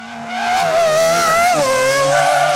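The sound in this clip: New sneakers skidding and squeaking as two people race in them, a loud sustained high squeal that wavers and dips in pitch partway through, heard alone without voices.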